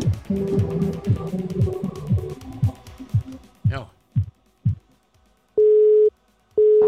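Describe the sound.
A telephone busy signal sounds while calling someone: a voice talks first, then two loud, steady, flat-pitched tone pulses come after a short pause, the second cut off at the end.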